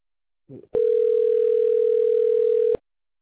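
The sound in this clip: A telephone line tone during a call transfer: a brief soft burst, then one steady, loud, unwavering tone lasting about two seconds before it cuts off.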